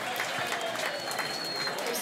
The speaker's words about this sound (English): that was me clapping.